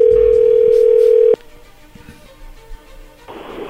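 Steady telephone line tone while a call is being dialed, holding loud and even for over a second before cutting off abruptly, followed by faint clicks and low noise.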